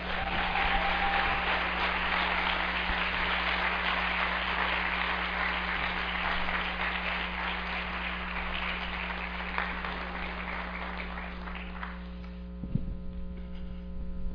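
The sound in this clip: Audience applause welcomes a speaker, a continuous wash of clapping over a constant low electrical hum; the clapping thins out near the end while the hum stays.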